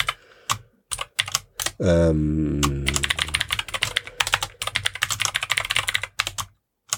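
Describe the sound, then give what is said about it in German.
Rapid, uneven keystrokes clatter on a computer keyboard as notes are typed, with crisp clicks throughout and a short stretch of voice partway through. “Ich schreibe mir das nur gerade mal mit auf, ja.”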